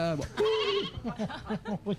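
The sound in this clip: A human voice imitates a sheep's bleat. One long, wavering, quavering bleat is followed by a series of short, clipped bleating pulses in a quick, even rhythm.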